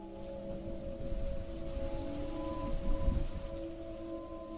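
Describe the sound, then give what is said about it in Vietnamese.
Heavy rain pours in a steady, hissing wash with a low thunder rumble swelling near the middle. A faint, constant droning tone runs underneath throughout. “Mưa mỗi lúc một to hơn. Lâu lâu lại nghe tiếng sấm rền trời.”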